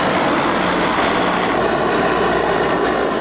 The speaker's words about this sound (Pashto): موږ هم د افغان هوایي ځواکونو په نوو بلاک هاک هلیکوپټرو کې کجکی ته راغلو.